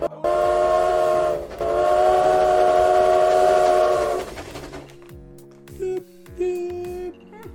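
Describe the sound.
A train sounds its whistle in two loud, steady, harmonic blasts, the second longer than the first. Quieter rumbling follows, with scattered short tonal squeals and clanks toward the end.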